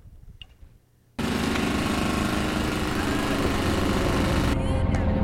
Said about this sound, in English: they chipped our street this week. They're there early in the week. And they're driving their trucks up and down.